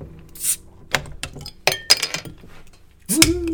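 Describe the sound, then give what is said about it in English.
Beer cans being cracked open: a few sharp metallic clicks and clinks with a brief hiss, ending in a louder fizzing rush. “So, all right, let's crack these bad boys and see if that water comes through again.”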